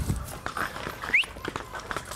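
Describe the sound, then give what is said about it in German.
A small herd of ponies bunched closely together makes soft, irregular hoof thuds and shuffling over a steady low background, without voices. “Die anderen nehmen immer nur maximal 3, 4 Ponys. Weil wie ihr seht, hängen die jetzt alle zusammen. Und wenn die jetzt quasi losziehen würden, würden die gut abräumen.”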